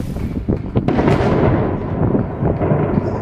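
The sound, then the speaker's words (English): A bomb blast in Manbij, northern Syria, heard as a loud, sustained, deep rumbling roar with a few sharper cracks near the start. “The blast happened in Manbij in northern Syria, according to Turkish news.”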